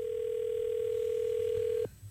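A telephone rings on an outgoing call to a landline. A single steady, mid-pitched electronic tone holds for nearly two seconds, then cuts off abruptly into quiet line noise.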